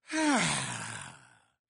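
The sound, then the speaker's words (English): A deliberate long exhale, voiced like a sigh. It opens with a falling tone and trails into a breathy rush that fades steadily over about a second and a half, alone with no talk. “I'm going to do my exhale”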